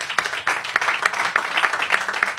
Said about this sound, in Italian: Applauso a Francesca Bloom.